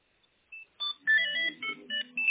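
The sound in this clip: Telephone dialing tones as a caller places a call from a second line: a quick run of short electronic beeps at differing pitches, one held longer, heard alone without talk.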